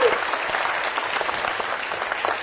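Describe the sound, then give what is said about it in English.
An audience at an on-stage introduction gives a round of applause: dense, steady clapping from many hands that holds at an even level throughout. “So could we give her a round of applause for Kids FM?”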